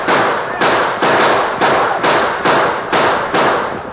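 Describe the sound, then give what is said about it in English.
Gunshots from riders in a western radio drama battle with homesteaders and ranchers: eight loud, sharp cracks in a rapid, fairly even volley, each trailing into noisy rumble, with no talk. “Riding hard, the homesteaders and the ranchers fired on the Indians.”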